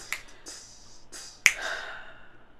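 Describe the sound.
Finger snapping used as a percussion track: a few sharp, crisp snaps spaced irregularly, the last one loudest, standing alone against near silence.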